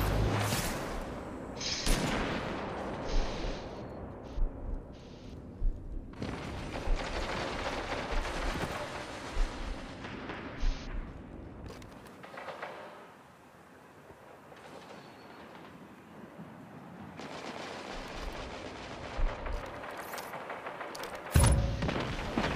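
Gunfire in the video game Destiny 2: dense, rapid shots and rumbling effects run continuously, with a quieter stretch midway and a sharp loud burst near the end.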